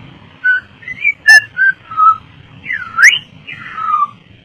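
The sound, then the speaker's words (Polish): Human whistling imitating a grandfather whistling to a pet bird: a quick series of short, bright melodic notes with a few sharp upward swoops, loud and alone without talk. “I dziadek jej gwizdał a ona zaczyna”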